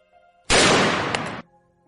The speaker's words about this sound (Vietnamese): Một tiếng súng vang lên.